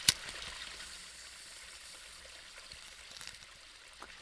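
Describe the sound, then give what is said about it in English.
Faint gurgling and trickling of water in a bong as it is hit, on a frozen lake, a continuous soft bubbling hiss that stays quiet throughout. “I just hit that, and I just figure this might just be the best bong hit that you can possibly have.”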